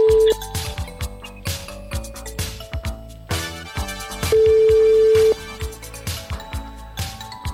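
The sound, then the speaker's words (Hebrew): Telephone dialing and ringing as a call is placed: a short dial beep, then a steady ring tone lasting about a second, heard over rhythmic background music. “אז בואי ננסה להתקשר אליה, בסדר?”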